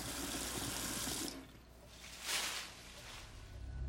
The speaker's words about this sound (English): She returns to the kitchen sink.